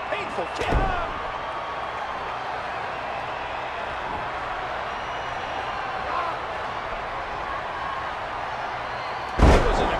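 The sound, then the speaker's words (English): A wrestler lands a scoop slam at a big wrestling event, giving heavy thuds on the ring over a steady crowd din. One thud falls near the start and a louder, sharper one near the end. “Dino Bravo with a sweet scoop slam on Coco.”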